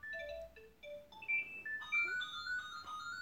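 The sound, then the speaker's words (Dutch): An office telephone ringtone sounds in the evening, a faint electronic melody of clear, sustained tones stepping up and down in pitch, one note after another. “Excuseer, er belt iemand.”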